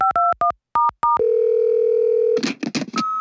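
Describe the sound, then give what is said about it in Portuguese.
Telephone tones while a call is placed: several short two-note keypad beeps, then a steady low tone held for about a second, a few noisy clicks, and a final higher tone. The sounds are clean, with no talking. “Ligando pro meu analista agora.”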